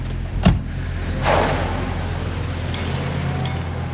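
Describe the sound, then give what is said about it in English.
A Jeep Grand Cherokee door shuts with one sharp thud near the start, then the engine swells and settles into a steady low hum as the vehicle drives off, with no talk. “walks briskly to his Jeep Grand Cherokee, gets in, and drives off.”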